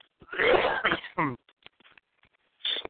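Throat clearing comes as a long, rasping, harsh burst at the start, followed by a few faint short sounds and then a second, shorter rough clearing near the end.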